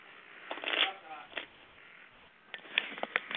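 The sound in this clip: Tarot cards shuffled by hand, with a few cards jumping out of the deck: quiet, papery riffling in several short bursts, a denser flurry early and more crisp flicks near the end.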